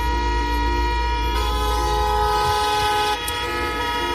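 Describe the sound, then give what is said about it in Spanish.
Many car horns blare together in a traffic jam on the road into Murcia, where tractors from a farmers' protest block the way. Overlapping, sustained tones of several pitches honk continuously and loudly throughout. “Así sonaba la carretera de entrada a Murcia, donde yo he estado parado más de 2 horas a 5 kilómetros del centro, ¿eh? Centenares de coches pitaban intentando que el atasco avanzara algo”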